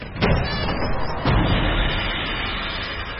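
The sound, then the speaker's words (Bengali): A door being shut and then locked from outside: two dull heavy thuds over a steady rumbling noise. “কথার সঙ্গে সঙ্গে লোকটা দরজা বন্ধ করে দিল। বাইরে থেকে দরজায় তালা বন্ধ করার আওয়াজটাও কুমুদের কানে এলো।”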